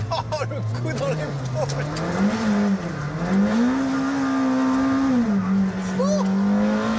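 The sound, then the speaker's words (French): An 800-horsepower, 1200 kg race car with 800 Nm of torque accelerates hard, its loud engine drone climbing in pitch with a brief dip midway, then holding high and steady while a voice exclaims over it. “On a 1200 kg, 800 chevaux, 800 Nm de couple. Ça fait à peu près le même poids qu'une Alpine, mais c'est trois fois plus puissant.”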